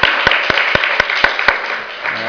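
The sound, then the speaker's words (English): Applause at the close of a presentation session, with about seven sharp, evenly spaced claps standing out over a softer, continuous patter of clapping that thins toward the end. “let's give you all a round of applause”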